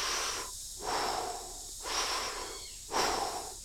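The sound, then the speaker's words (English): Rhythmic breathing during a breath-of-fire meditation while pumping the navel: a steady series of loud, hissing breaths in and out at an even pace, each separated by a brief pause, with no talking. “we use an equal amount of breath in, an equal amount of breath out, while pumping the navel. On an inhalation, your navel moves forward. On the exhalation, your navel moves back.”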